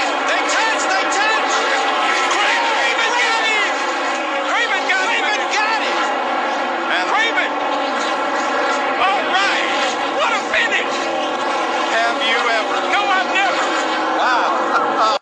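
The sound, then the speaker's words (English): Stock car engines roar side by side toward the finish line at Darlington, a dense continuous drone with wavering, sweeping pitches, under excited commentary. “Wow, what a finish is right. What a finish that was. They were side by side touching, crossing the finish line at Darlington.”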